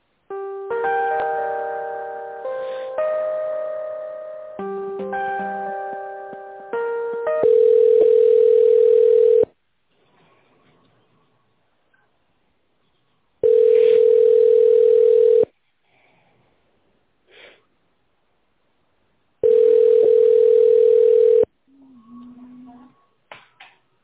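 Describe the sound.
Telephone line tone during a call transfer. Short melodic electronic tones come first, then a steady low tone sounds in three long pulses of about two seconds each, with silent gaps between them.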